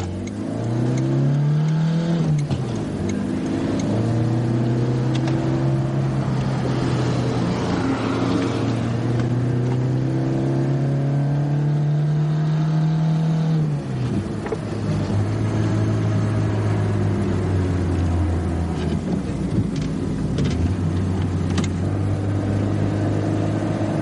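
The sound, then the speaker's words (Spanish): A car drives along a road, its engine giving a steady, loud drone that rises early on and shifts lower a couple of times as it cruises, with no voices. “el vehículo circula por la carretera”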